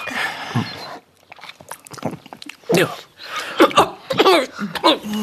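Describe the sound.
Someone bites and chews a piece of cake, a few crunchy bites broken up by muffled, voiced mouth noises and grunts from the eater.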